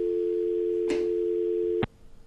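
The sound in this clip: A steady, mid-pitched telephone line tone after a call drops, holding one unbroken note with a faint click partway through, then ending abruptly on a sharp click that leaves only low background noise.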